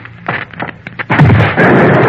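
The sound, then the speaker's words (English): A rigged machine shorting out and exploding: a run of sharp crackling pops gives way to a loud, rough, noisy blast that carries on to the end. “The machine's ruined, though. I might have known. She had it rigged to short and explode if it was tampered with.”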